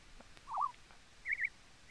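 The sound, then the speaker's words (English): A bird call from updated in-game sounds in a video game: a few short, soft warbling chirps. One lower note comes first, then a quick higher pair and a final high note, all faint over a quiet hiss. “Wow, I heard it. See, they updated the bird sounds. Well, I thought that was a real bird. They updated the bird sounds yesterday. I noticed that. You just made me listen to a bird on RuneScape.”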